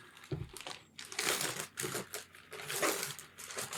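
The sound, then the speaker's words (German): Children's gift wrapping paper crinkles and tears as a present is unwrapped, loud bursts of crackling rustle coming in irregular waves separated by brief pauses. “Das ist jetzt wirklich schön eingepackt mit so einem Kindergeschenkpapier.”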